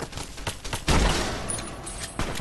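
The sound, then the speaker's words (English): Gunfire in the Fallout video game: a loud volley of rapid, overlapping shots with sharp cracks and a heavy low thump near the middle, continuing as a dense, sustained barrage with no talking. “why the fuck are you shooting at me?”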